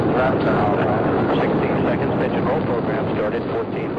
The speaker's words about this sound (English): Launch commit. Liftoff. We have liftoff with Apollo 14.